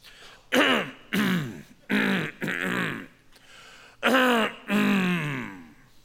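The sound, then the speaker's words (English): A person deliberately imitates throat clearing with several gruff, rasping bursts, loud and alone. The bursts come in two clusters separated by a short pause. “And everybody gets quiet, don't they? Because by clearing their throat, they are saying, I'm about to voice something here.”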